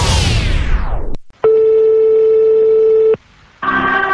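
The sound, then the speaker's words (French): Phone line reaching an answering machine, heard as one long steady electronic beep held for under two seconds, loud and clean, set between short bursts of other noisy and tonal sound. “Ah merde, répondeur.”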